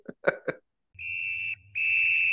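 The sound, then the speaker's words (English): A referee's halftime whistle at a soccer match gives two shrill, steady blasts, the second cut off at the end, after a few brief clipped sounds. “there's the halftime whistle”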